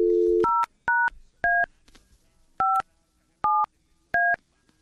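A telephone number is dialed to call a possible winner of a trip giveaway. A low beep comes first, then six crisp dual-tone keypad tones in an uneven rhythm, alone and clear.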